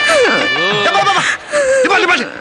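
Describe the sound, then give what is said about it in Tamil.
A person cries in a wedding house, giving wavering, wailing sobs with sliding pitch in two long bursts separated by a brief dip. “ஆமாப்பா, உண்மையிலே அழுகு சத்தம் கேக்குது.”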